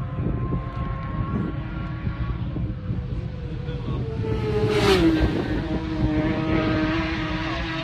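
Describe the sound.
A racing motorcycle passes during a road race, its engine a steady drone that swells to a peak and drops in pitch as it goes by, then carries on at a slightly lower level.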